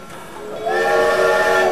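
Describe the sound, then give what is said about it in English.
A train at a station sounds a sustained, steady whistle that starts partway through over a low, rumbling background. “Outside a train station, PT”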